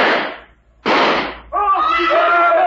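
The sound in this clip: Two loud gunshots in quick succession, each a sharp blast with a short decaying tail, followed by a voice starting to talk.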